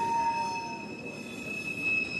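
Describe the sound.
A passenger train rolls along the rails with a steady rumbling drone and thin, sustained high squealing tones from the wheels, continuous and even throughout.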